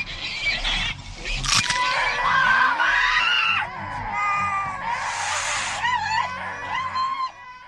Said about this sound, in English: So, of course, the egg hatches at this point, and we get the worst sound effects for this demon baby that I have ever heard.